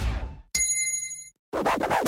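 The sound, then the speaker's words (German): A gong strikes once to signal a drink break, giving a bright, ringing chime with clear overtones that decays over roughly a second, with other louder sounds before and after it. “Trinkpause. Der Gong.”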